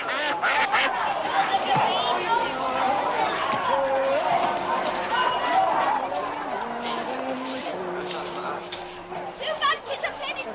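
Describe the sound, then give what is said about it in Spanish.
A crowd fills a medieval city street with carts and flocks of geese, making a lively hubbub of overlapping voices, chatter and laughter that stays fairly loud throughout. “Dick camina entre la gente que abarrota la calle ahora con carretas y bandadas de gansos.”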